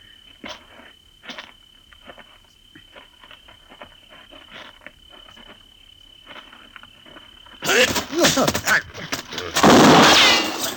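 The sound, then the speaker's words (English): A gunshot goes off during a struggle: insects chirp softly at first, then a burst of rough scuffling noise is followed by one loud, sharp blast near the end. “His gun just went off when you hit him.”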